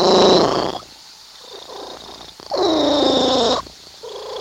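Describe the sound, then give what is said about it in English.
A domestic cat purrs in loud rumbling stretches, two strong bursts separated by quieter lulls, a steady textured drone with no voices present. “That is the sound of a purring cat.”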